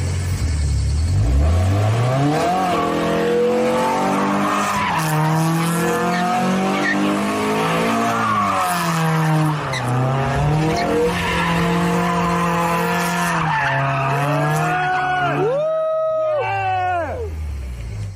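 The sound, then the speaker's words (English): A car drifting somewhere in Japan: tires squeal and skid continuously over a revving engine, the squeal wavering up and down in pitch, loud and sustained throughout. “This is Jaylen Brown drifting, I guess Tokyo drifting”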